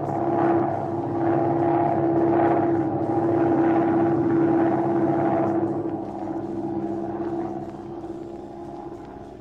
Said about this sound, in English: Turn back to the airport. We're going to land and do some investigating.